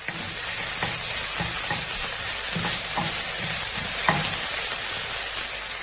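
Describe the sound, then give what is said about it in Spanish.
Chopped chicken sizzles as it is sautéed in a pan with golden garlic and onion: a steady, fairly loud frying hiss runs throughout, broken by regular soft knocks and scrapes of stirring. “añadimos el pollo troceado y lo salteamos”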